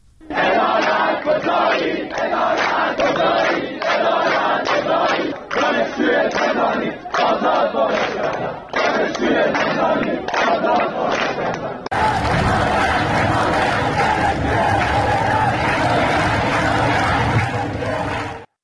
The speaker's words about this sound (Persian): به چند صدای تجمع دانشجویان هم با هم گوش کنیم.